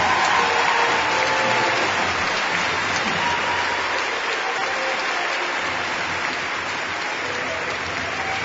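Sustained audience applause for a Lifetime Achievement Award recipient, a dense, steady clatter of clapping that fills the whole clip and eases only slightly toward the end.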